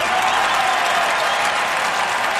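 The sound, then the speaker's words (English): Massive applause from a large audience forms a dense, steady roar of clapping that fills the whole stretch without a break. “And that is the massive applause that you are experiencing as the creator of Aviatrix”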